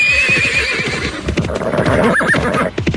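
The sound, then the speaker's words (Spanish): A horse neighs loudly with a wavering, high whinny, accompanied by rhythmic clip-clop hoofbeats and snorting. No voices are present. “luego José Magdaleno se trepó un caballo”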